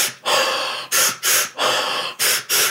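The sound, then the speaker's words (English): Sharp breath inhales in a steady breathing rhythm, each quick pair of short, forceful sniffing breaths alternating with a longer, loud breath, hissy and close with no talk. “So I'd wake myself up that way in the morning. Two sharp inhales,”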